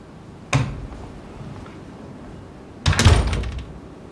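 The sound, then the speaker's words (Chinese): A door is shut, heard as two thuds: a brief knock first, then a louder and longer bump about two seconds later, over faint background noise with no talk. “把门关上。”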